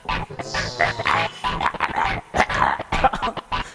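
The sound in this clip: A voice imitates a dog with a run of harsh, throaty barks and growls, many short bursts packed closely together and fairly loud, without pause across the whole stretch.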